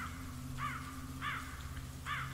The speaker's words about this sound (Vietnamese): Từ trên những cành cây cao, mấy con quạ đen thình lình vỗ cánh bay vút, kêu lên những tiếng thê thiết.